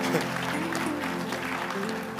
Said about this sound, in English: See, you are not clapping because you don't like it. See how you are clapping.